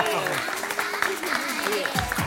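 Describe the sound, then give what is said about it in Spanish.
Audience applause for a magician on stage. A steady patter of clapping runs under a voice that keeps talking over it. “Un aplauso para Magic Andreu.”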